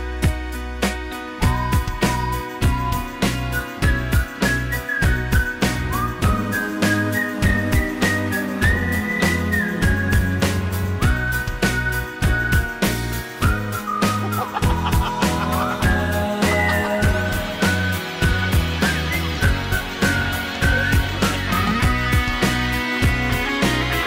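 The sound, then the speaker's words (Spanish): A whistled tune, a wavering melody carried over busy backing music with a steady beat, continuing for the whole stretch. “Ojalá que no sea un plagio, pero qué más da, solo quiero silbar.”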